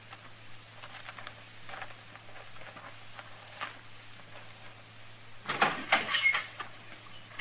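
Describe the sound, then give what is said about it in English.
Footsteps of someone approaching in a Western radio drama start as faint, light taps and end in a louder burst of clattering. “Hey, I hear somebody coming.”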